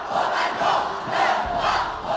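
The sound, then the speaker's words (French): Angry crowd shouting outside the palace and blocking the stables, a massed roar of many voices that swells and eases in a few surges. “Madame, la foule bloque les écuries. Il nous est impossible de sortir.”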